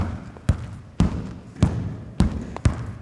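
A ball landing in the net as the answer in a sound-guessing game, heard as five dull, low thuds at uneven intervals, each decaying quickly.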